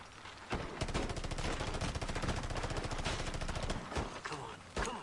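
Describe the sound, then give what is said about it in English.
Rapid automatic gunfire in a video game tears through a house wall, a continuous burst of sharp, evenly spaced shots lasting several seconds, ending with a few separate loud bangs. “Well, that wall got shot to fuck.”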